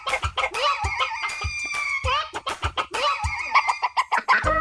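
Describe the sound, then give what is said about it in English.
A rooster crows and clucks in a run of harmonic, strained calls broken by sharp clucking pulses, loud and fairly continuous throughout. “oh, there's that rooster crowing.”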